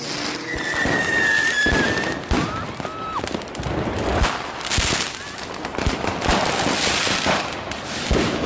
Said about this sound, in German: Ein Einsatzwagen der Berliner Polizei wird mit Feuerwerkskörpern angegriffen.